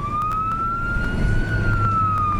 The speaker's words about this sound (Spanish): Una vez más, las sirenas resonaron en la noche caleña.